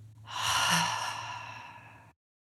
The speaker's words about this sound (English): let's just take a moment in our body and take a big, deep breath in through our nose